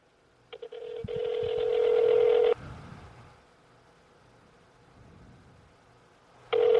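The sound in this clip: A phone call being dialled on speakerphone: a few short beeps are followed by a long, steady electronic tone that cuts off. Low background hum continues, and another tone begins sharply at the end.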